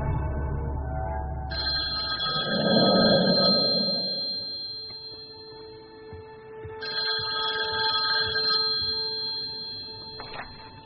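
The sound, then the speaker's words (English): A telephone on an old landline rings in two long bursts of bright, trilling electronic ringing separated by a pause, fairly loud with no talk. “I took a chance and dialed the number I had for Lydia's old landline.”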